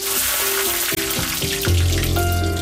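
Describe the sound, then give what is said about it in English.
Diced onion frying in melted butter in a piping hot pan gives a steady, dense crackling sizzle that runs unbroken and fairly loud throughout. “A piping hot pan. A spoonful of butter melts gently across the surface. Throw in your diced onion and within seconds, the ingredients begin their transformation.”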